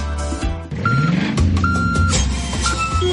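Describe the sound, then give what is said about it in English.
Reversing beeps from delivery trucks: a steady train of high electronic beeps repeats over a low engine rumble. “Can you hear that? That's the sound of truckloads of new entertainment being delivered on Foxtel.”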